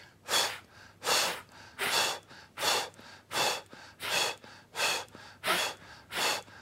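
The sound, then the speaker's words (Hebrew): Breathing out during a pelvic floor exercise: nine strong, airy exhales in a steady, even rhythm, each one a loud rush of breath separated by short quiet gaps. “אתם לא רואים את היד שלי, אבל תשמעו את הנשימה שלי. כל פעם שאני נושף, בעצם אני מקווץ את שרירי האגן.”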